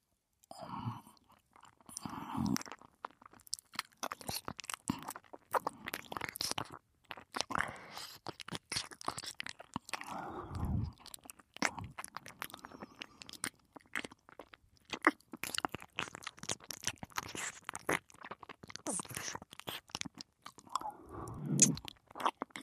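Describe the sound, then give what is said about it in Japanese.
Wet chewing, biting and mouth sounds of someone pretending to eat a listener's ear, with many close, crunchy and squishy bursts continuing steadily throughout and a few faint breathy whispers. “じゃあ早速、美味しそうな耳をいただきます。”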